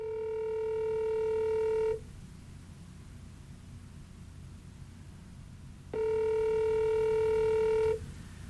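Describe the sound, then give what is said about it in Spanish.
Telephone line tone after a dropped call: two long, steady, mid-pitched beeps of about two seconds each, separated by a pause of faint hiss. “Bueno, se cortó la llamada. Quién sabe por qué, pero bueno.”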